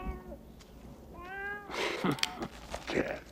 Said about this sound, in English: A black cat walks toward the table. The rat-nosed gangster picks it up.